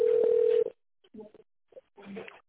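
A single steady telephone keypad DTMF tone from a company's automated phone menu sounds clearly for just over half a second, followed by brief, softer broken fragments after a short gap.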